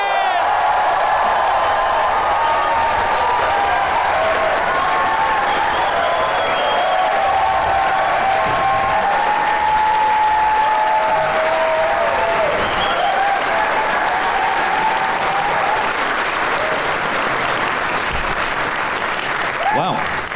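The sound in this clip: A live audience at Kings Place gives Michael Winterbottom and Steve Coogan a long, loud welcome. Continuous clapping, cheering and scattered whoops hold steady for about twenty seconds.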